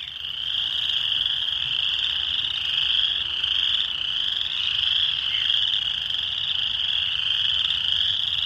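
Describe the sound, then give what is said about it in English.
A chorus of spring peeper frogs a couple of blocks away in Michigan, giving a continuous, shrill, high-pitched peeping that stays steady and unbroken throughout. “And spring is finally here, as you can hear from these spring peepers a couple of blocks away.”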